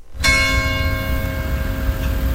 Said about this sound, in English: Church bells ring in Saint-Jean-d'Illac as the village comes to life again.